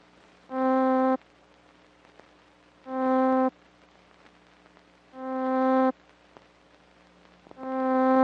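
A synthesizer note, a buzzy harmonic tone, sounds four times alone with pauses between. The first starts abruptly, and the later notes gain a progressively slower attack that swells in, each cutting off sharply.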